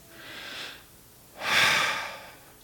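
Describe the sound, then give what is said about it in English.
Deep human breathing: a softer, shorter airy breath, then a pause, then a longer and louder rushing breath. No talk. “Take a deep breath with me there for a minute.”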